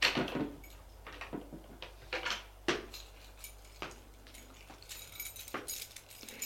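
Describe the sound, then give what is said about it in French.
A second hotel room door is unlocked and opened: jangling keys, clicks and knocks come in a quick, irregular series, then quieter handling noise. “Ils sortent de la chambre. Elle va ouvrir une deuxième chambre.”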